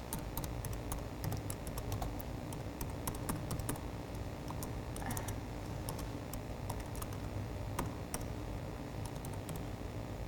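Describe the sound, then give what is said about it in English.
Typing on a computer keyboard during a hands-on coding demonstration: many rapid, uneven key clicks and taps, fairly faint and continuous, with short bursts and brief pauses and no talking. “I wish I could type faster.”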